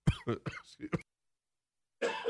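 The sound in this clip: A sports talk host coughs after getting choked up: a quick run of harsh bursts, a second of silence, then one more rough burst.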